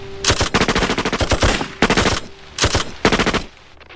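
Automatic gunfire rattles out in four loud, rapid bursts, the first long and sustained, the rest shorter, with brief gaps between them.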